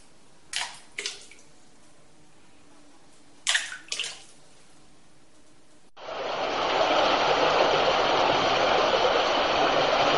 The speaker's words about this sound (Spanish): Como vemos, es un río que suena con fuerza, es como cualquier río de montaña